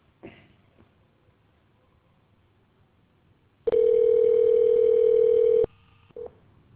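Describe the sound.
Telephone tones as a call is forwarded to voicemail: after a faint click, a single steady electronic tone holds for about two seconds, then a short, quieter second tone follows.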